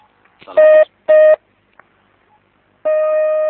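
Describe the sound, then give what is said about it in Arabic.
A telephone call is dialed and connected: two short, loud electronic beeps sound in quick succession, followed after a pause by a longer steady tone that keeps going to the end. “شكرا نتصل كريم”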